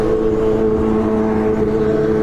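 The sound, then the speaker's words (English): A car horn honks at a rider on a mini bike in the street, a sustained steady tone over a constant motor drone. “Who are you honking at? Who are you honking at?”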